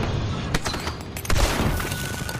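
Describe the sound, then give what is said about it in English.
A grenade explodes during a shooter video game battle, heard amid continuous loud gunfire crackle, with a heavy low boom standing out a little past halfway through the dense, noisy din. “Grenade deployed! That's a grenade.”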